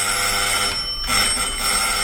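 A doorbell rings at a home's front door, a steady high-pitched electric ringing tone that breaks off briefly midway before resuming, heard alone without voices.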